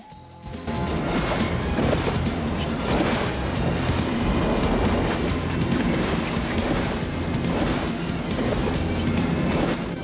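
A rocket-boosted speedboat races over the river Thames in London past the Houses of Parliament, making a loud, dense, continuous roar of engine and rushing spray with rhythmic surges. The roar starts abruptly after a brief quiet moment, with no voices.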